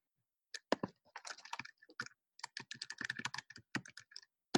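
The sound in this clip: Rapid typing on a computer keyboard as a note is written down, many quick key clicks in irregular bursts separated by brief pauses.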